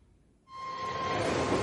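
A moving train heard from inside a compartment: after a near-silent moment, a loud, broad rumbling roar cuts in abruptly and holds steady, with a thin whine running through it.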